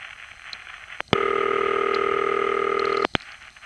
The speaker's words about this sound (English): And as you can hear, that is more of a typical city ring than what we got on HA7.